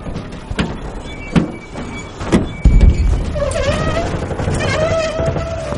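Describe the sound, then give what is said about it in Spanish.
A truck's door is opened while the vehicle lies overturned on its left side on a road, with the door now facing upward. A few knocks and a heavy clunk lead into a steady, rumbling noise. “El camión ha quedado volcado del lado izquierdo en la carretera. El cabo abre la puerta que ahora queda arriba.”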